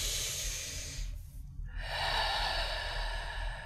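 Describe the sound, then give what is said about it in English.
A deep breath taken during a guided meditation: two long, soft, airy breathing phases separated by a brief pause, calm and unhurried, with no talk over them. “And now taking that deep breath once again.”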